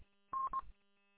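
Two short, evenly pitched electronic beeps in quick succession come over a two-way amateur radio transmission, faint and alone, with the line quiet before and after.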